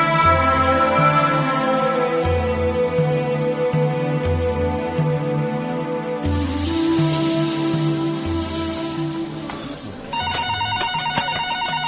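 A telephone rings before a customer's call is answered, its electronic tone repeating in steady, regular bursts, then shifting to a higher, pulsing ring pattern near the end.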